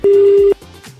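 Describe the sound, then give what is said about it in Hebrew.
A telephone tone sounds while a number is dialed: one loud, steady mid-pitched beep lasting about half a second, followed by fainter, lower tones. “שומעים את הצליל חיוג של חנה.”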